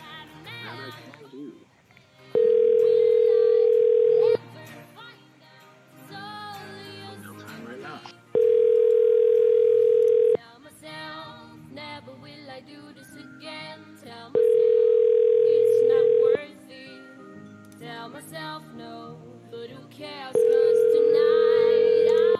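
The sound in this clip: A telephone ringback tone plays while a call is placed back to someone. Four steady, flat electronic tones of about two seconds each repeat at even intervals, with talking and other sounds filling the gaps.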